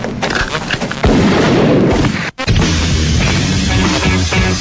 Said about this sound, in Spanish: Esos fueron los disparos del día sábado.